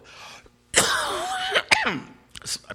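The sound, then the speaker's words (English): Coughing during a talk: a rough, drawn-out hacking cough followed by a few shorter, sharp coughs and throat-clearing bursts, loud against a quiet background. “apologize with the cough. We're still struggling with it.”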